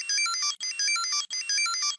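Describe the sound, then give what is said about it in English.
Electronic beeping from a Tamagotchi, the handheld digital pet popular in the late 1990s: three identical bursts of high, chirpy, melodic beeps, each about half a second long and separated by brief gaps. “That was a Tamagotchi, one of those handheld digital pets that were all the rage in the late 90s.”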